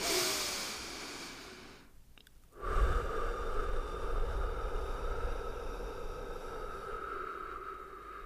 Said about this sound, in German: dann atme doch einfach mal 4-5 Mal tief ein und aus. Und vor allem beim Ausatmen schaust du, dass du richtig lange ausatmest.